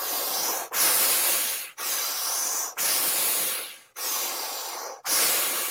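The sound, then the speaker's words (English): Forceful breathwork exhales pushed out through the mouth, like blowing across a room at a candle: six long, hissing, saw-like breaths in a steady rhythm, each cut off by a short gap, with no talk. “it's a forceful exhale through the mouth, like you're trying to blow a candle out on the opposite side of the room. Yeah, exactly. So when we loop them together, it's going to sound like this.”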